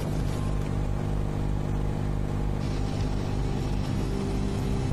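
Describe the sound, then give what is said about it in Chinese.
A speedboat engine drones during a ride across Weishan Lake. The low, loud hum and rumble hold steady and unbroken the whole way, with no voices. “那我是坐这个快艇，你把我载过去。”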